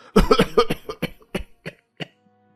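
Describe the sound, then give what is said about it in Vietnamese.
An old man coughs in a long bout: a dense cluster of harsh coughs, then several spaced, weaker coughs that trail off into quiet. “Ông cụ báu ho thêm một tràng dài, rồi lại khó nhọc kể tiếp.”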